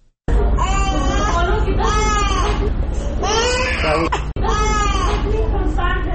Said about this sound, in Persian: همکارم نسیم شفق در این مورد گزارش داره که با صدای گریان یک کودک آغاز میشه.